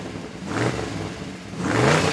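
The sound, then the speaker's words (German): A Porsche sports car speeds through the night toward Italy at high revs, around 200 km/h. Its engine roar surges in two strong swells, and the tone climbs during the second. “Porsche brauste mit 200 Sachen durch die Nacht gen Italien.”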